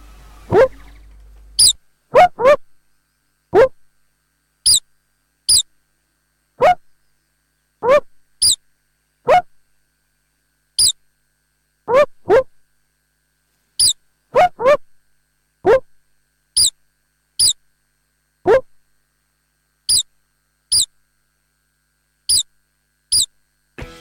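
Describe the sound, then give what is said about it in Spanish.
Star-nosed mole calls: many short, high-pitched squeaky chirps in an irregular series, some coming in quick pairs or clusters, with silent gaps between them. “Se llama topo de nariz estrellada. Topo de nariz estrellada. Acá podemos escuchar ahora, ¿no?”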